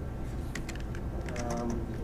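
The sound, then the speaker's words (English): Typing on a computer keyboard, done with the neck: quick, irregular key clicks, fairly faint, in short bursts over steady background noise. “It's really hard to type with your neck.”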